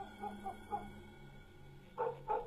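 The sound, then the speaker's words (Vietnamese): A dog barks below a house: two loud barks close together near the end, after a few fainter, shorter sounds earlier on. “Chỉ có con chó ở dưới nhà cứ hóng ở bên ấy mà cắn lên nhấm nha nhấm nhặng.”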